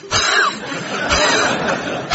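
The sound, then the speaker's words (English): A voice imitates heavy, out-of-breath panting in a few short, breathy, gasping bursts separated by brief pauses. “a heavy breather, so she's out of breath as well. She's going,”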